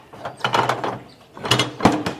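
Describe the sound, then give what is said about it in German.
A thick wooden side door of a monastery opens just a crack. Two clusters of short clunks and scraping knocks are separated by a brief pause. “Er hält vor dem San Damiano-Kloster und klopft an die dicke, hölzerne Seitentür. Ein paar Sekunden vergehen, dann öffnet sich die Türe einen Spalt.”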